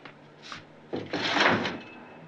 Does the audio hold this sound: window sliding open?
yes